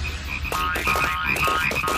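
Frogs croak at a pond in a dense, steady chorus of rapid repeated croaks that carries on without a break from start to finish.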